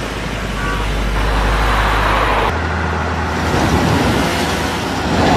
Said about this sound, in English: did you see that? Porsche 911? I love those.